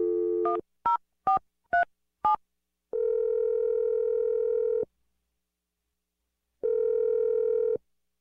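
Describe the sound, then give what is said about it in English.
Telephone number being dialed: a brief dial tone, then four quick beeping key tones, followed by two long, steady ringing tones separated by a silent gap. “I'm going to dial Melanie's number right now.”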